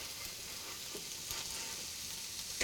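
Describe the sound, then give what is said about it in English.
Okonomiyaki pancakes with pork fry in a pan, giving an even, continuous hiss of sizzling oil with small crackles and no voices. “flip pancakes with pork, increase temperature, cover and cook 5 minutes.”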